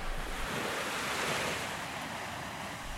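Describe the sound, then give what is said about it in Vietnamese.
Strong wind blowing over sea waves, a steady broad rushing roar blended with continuous surf wash, fairly quiet and unbroken, with no voices. “gió bắt đầu thổi mạnh”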